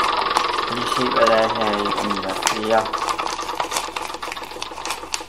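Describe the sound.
A spinner wheel in a video board game turns with rapid, even ratcheting clicks, joined by brief electronic musical tones partway through.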